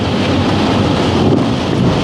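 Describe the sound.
Typhoon wind and rain roaring near the storm's center: a dense, steady wash of noise with no pauses and no voices.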